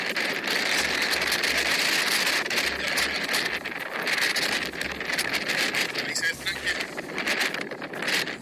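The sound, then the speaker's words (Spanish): A strong, terrible wind at a reservoir whose water has risen, blasting the microphone with a loud, continuous roar that surges and dips in gusts for the whole stretch. “La verdad, un viento terrible.”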